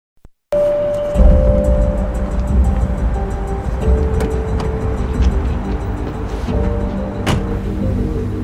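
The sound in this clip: A car driving along makes a steady low engine drone and road rumble that holds fairly loud throughout, beginning abruptly after a faint click and near-silence.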